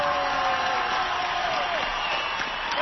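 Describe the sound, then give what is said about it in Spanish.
A live show audience applauds goalkeeper Guillermo Ochoa with a steady, moderate burst of clapping and crowd noise that carries on without pause. “El mejor aplauso para Guillermo Ochoa.”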